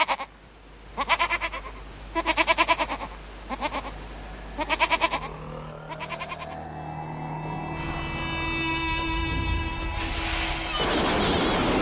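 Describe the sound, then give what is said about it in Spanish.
Horned, bearded Cameroon goats bleat while grazing under a local bridge, giving several short, harmonic bleats in an uneven rhythm, followed by a droning vehicle whose tone rises and then a broad burst of noise. “podrán divisar en los alrededores otra curiosidad, cabras cameruneses que pastan debajo del puente local. Los chivos tienen cuernos y una densa barba”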